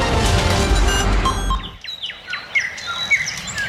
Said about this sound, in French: En attendant le retour à la normale, nous vous proposons de vous relaxer avec le chant des oiseaux.